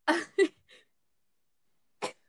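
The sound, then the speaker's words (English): Throat clearing and coughing, faint: a quick cluster of short rough bursts, then a pause before one last brief cough. “excuse me. I don't have coronavirus. Is it something in my throat?”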